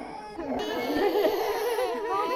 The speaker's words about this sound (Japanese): ギャン泣きになっちゃいましたね。